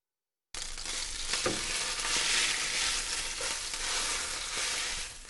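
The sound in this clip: Chicken fillets fry in a frying pan with a steady, crackling hiss of hot oil. The sizzle starts after a brief silence, stays fairly even with a few sharper pops, then eases slightly at the end.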